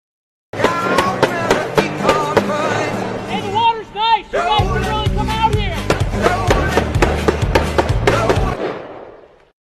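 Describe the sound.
Rapid bangs of a boat motor fired with shotgun shells, a loud, fast train of sharp reports running for several seconds with a brief break partway through before it dies away.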